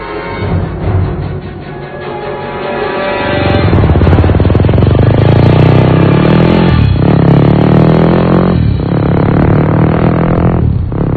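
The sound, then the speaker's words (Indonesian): Motorcycle engine approaching from a distance at night, a loud, rough drone that swells and then holds strong, broken by a few short dips like gear changes or throttle lifts. “terdengar suara motor dari jauh. Aku pun melihat cahaya motor mendekati kami.”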